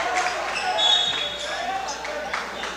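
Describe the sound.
Basketball dribbled up the floor during a game between the Rebels and Mammoth Spring, a few dull bounces set in steady, dense background noise from the game with voices mixed in.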